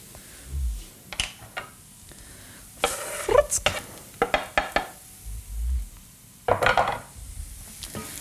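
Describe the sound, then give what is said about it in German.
Garlic frying in a pan with tofu and sugar, stirred in bursts of scraping and clattering against the pan, with a soft sizzle underneath and a few dull low knocks; no voices. “Jetzt kommt der Knoblauch rein, der muss auch noch ein bisschen angebraten werden.”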